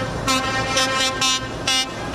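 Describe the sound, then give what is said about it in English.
Horns sound from a convoy of 20 trucks carrying humanitarian aid into Gaza: sustained, loud horn tones with repeated stronger bursts over a constant rumbling background, and no talking. “That's a convoy of 20 trucks entering Gaza with humanitarian aid for the millions that have been trapped there amid a blockade after the Hamas terror attacks on Israel.”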